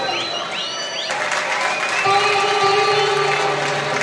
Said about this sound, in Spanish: Pido un fuerte aplauso.